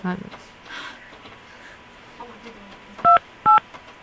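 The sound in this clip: Two telephone keypad dialing tones sound during a phone call, each a short, loud, steady beep with a brief gap between them, after a stretch of faint background noise.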